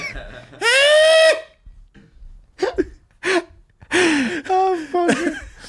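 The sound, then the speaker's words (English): A voice imitates a sleeping boy's snoring that sounds like singing: a few tonal, sung-like vocal bursts with wavering pitch, broken up by short breathy gasps. “I thought he had woken up and he was singing, but he was actually just snoring, and this guy's asleep just going like”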